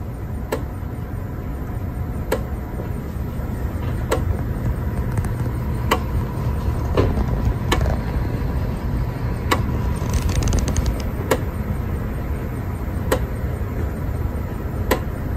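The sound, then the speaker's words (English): Sharp ticks of index pulses from a floppy drive run by a Raspberry Pi Pico RP2040 repeat at an even pace, roughly every two seconds, over a constant whirring motor drone. “Okay, those are index pulses coming from this floppy drive that I am interfacing with.”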